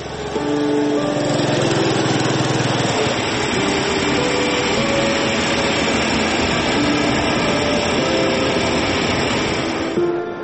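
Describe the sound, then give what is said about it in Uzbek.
Loud, buzzing engine drone of the village water distributor's motorcycle at dawn in Samarqandlik village, Batken, running continuously with shifting revs and no pauses. “Botkenning Samarqandlik qishlog'ida tong sukunatni mirobning mototsikli shovqini buzadi.”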